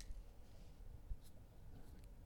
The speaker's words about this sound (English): All right. I'm going to write that down.